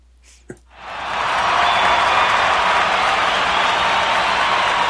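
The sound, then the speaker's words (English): Studio-audience applause sound effect that swells in after a short click and then holds as a loud, dense, steady wash of clapping for several seconds. “It's our studio audience. Someone finally added some sound effects into the sound.”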